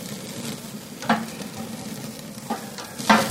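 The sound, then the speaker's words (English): Sizzling from a thick piece of meat searing in a pan: a steady hiss runs throughout, broken by a few sharp pops or scraping clicks. “So now, you've already got a sear on, but because it's such a thick piece of meat...”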